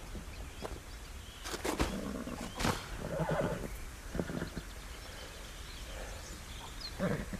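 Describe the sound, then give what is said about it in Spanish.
A mare neighing as someone climbs onto her. Several rough, breathy whinnying and snorting bursts, some sharp and some drawn out, rise over a constant hiss of background noise. “Sube a la yegua.”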